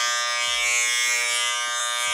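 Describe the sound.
Electric shaver buzzing steadily during a shave, a continuous high, bright hum lasting about two seconds with no break and no voices.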